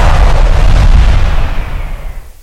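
Big Diwali-style firecrackers exploding: a loud, heavy booming roar holds for over a second, then slowly tails off and fades by the end.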